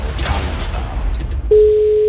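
A telephone line ringing tone sounds as an outgoing call is placed. A loud, steady pure tone starts partway through and holds to the end, after a stretch of noisy, rumbling sound.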